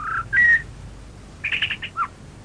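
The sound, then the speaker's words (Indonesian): A bird sings sweetly on a morning in the open countryside. A couple of short clear whistled notes are followed by a pause, then a quick run of bright chirps and one final call, with no voices. “hei, kau dengar suara burung itu? Merdu sekali”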